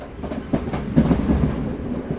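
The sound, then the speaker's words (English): A Mumbai commuter train runs along the track with a steady low rumble. Rhythmic clickety-clack wheel beats come in quick clusters, with no voices. “The best way to see Mumbai is by train.”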